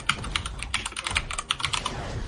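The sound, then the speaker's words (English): Typing on a computer keyboard, with many rapid, uneven clicking keystrokes in quick succession over a faint low rumble. “Jesus Christ, over there typing a novel”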